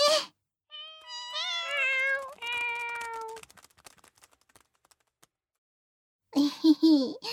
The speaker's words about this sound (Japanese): ということで、うちの猫ちゃんを紹介します。みんな、おいで